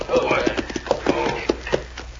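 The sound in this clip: Horses' hooves clip-clop on arrival at a cafe hitch rail, a quick, uneven patter of hoof knocks running throughout.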